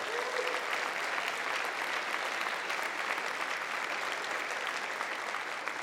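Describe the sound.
A church audience at Central Assembly applauds to welcome missionaries back, with thick, continuous clapping at an even, full level from start to finish.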